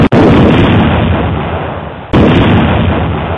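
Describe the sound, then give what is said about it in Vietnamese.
Explosives detonate against the outer wall of a prison: a deafening blast rolls into a long, loud rumble, then a second sharp explosion about two seconds later brings another roaring wave of noise. “Một tiếng nổ ghê gớm phát ra, tiếp theo nhiều tiếng nổ khác.”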